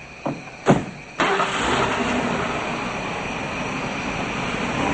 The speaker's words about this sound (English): Darby and Gray pull away, and the men follow.